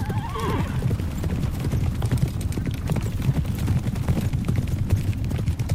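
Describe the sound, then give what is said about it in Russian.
Horses gallop in a pursuit. A sharp whinny comes first, then hooves pound in a rapid, loud, continuous clip-clop rhythm with no voices. “Ночные птицы стихают, потревоженные, а земля начинает идти тихой вибрацией из-за топота копыт.”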